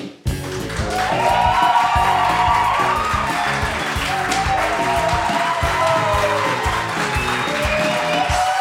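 A small, scattered live audience at the Cabane de Val d'Or, seated apart for distancing, cheers loudly, clapping and whooping in a continuous noisy stretch.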